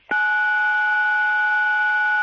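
A single telephone keypad tone for the digit 9 rings out steady and loud for about two seconds, with no voices or other sounds around it.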